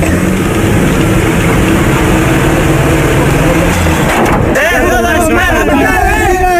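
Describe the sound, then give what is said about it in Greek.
A car engine runs as a learner driver shifts gear and accelerates, a loud, constant rumbling drone with people talking over it. “Βάλε ταχύτητα. Μάλιστα. Άφηνε σιγά σιγά τον Τεμπραγιάς και πάτα γκάζι.”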